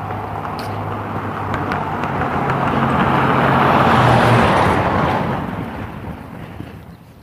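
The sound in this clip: A truck towing a boat on a trailer passes by as a broad rumbling roar that swells steadily to a peak mid-clip and then fades away.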